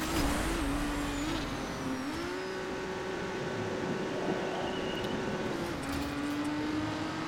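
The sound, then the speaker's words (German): Race car engine in the Trackmania video game drones on a steady, fairly quiet note. Its pitch dips briefly near the start and around two seconds, then holds level to the end. “Hier lässt man kurz Gas weg. Hier gibt man Vollgas.”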